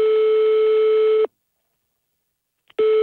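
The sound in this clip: Telephone ringback tone during a call transfer, a steady mid-pitched tone lasting just over a second, then a pause of silence before the same tone starts again.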